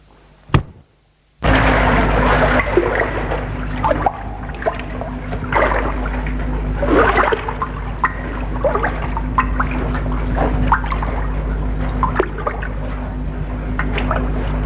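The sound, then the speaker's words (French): Oars stroking water as a rowing boat moves off, with continuous watery sloshing and small splashes and knocks. The sound is steady and fairly loud after a brief quiet opening. “Puis, elle s'assoit, prend les rames et s'éloigne.”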